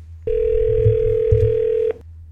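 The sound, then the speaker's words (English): A telephone call connecting: a steady, unbroken electronic tone holds for about a second and a half, then cuts off abruptly, with nothing else heard. “Here's our phone call.”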